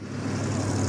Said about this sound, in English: That's the sound of rush hour.